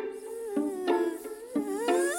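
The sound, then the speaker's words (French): A human voice imitates a buzzing housefly with a continuous nasal drone, steady in pitch but wavering slightly, with a few louder pulses across the sound. No other voices are heard. “Je sais faire la mouche.”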